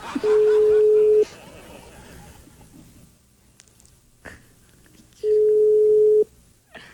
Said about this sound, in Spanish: Llamando al director de la emisora.